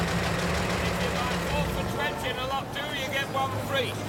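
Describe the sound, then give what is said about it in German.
A taxi's engine idles as it pulls up, a continuous low mechanical hum running beneath a person talking. “In der 158. hielt das Taxi vor einer langen weißen apartment haustorte an.”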